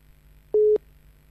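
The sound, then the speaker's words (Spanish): A single short, steady mid-pitched telephone tone sounds once during an outgoing call, clean and alone over a faint low hum. “Le estoy llamando a Carlos Roja. Está sonando.”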